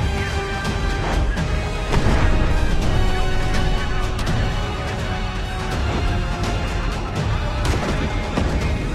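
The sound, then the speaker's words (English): A shell strikes a ship in a film sea battle and it bursts into fire: a heavy crash and loud roaring, crackling noise with several impacts, growing stronger early on and staying dense and rumbling throughout. “A hit lands, and fire bursts from one of the ships.”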